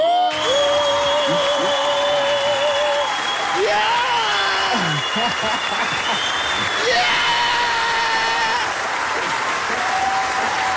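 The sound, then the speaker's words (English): Loud, sustained applause and cheering greet a studio guest. Dense clapping runs the whole time, with whoops and shouts mixed in. “Ladies and gentlemen, please welcome our fave and a special guest for this morning. Give it up for Manana!”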